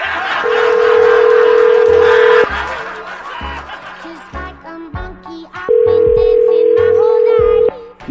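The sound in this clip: Telephone dialing and line tones during a prank phone call: two long, steady, loud electronic tones, each about two seconds, separated by a stretch of laughter and chatter.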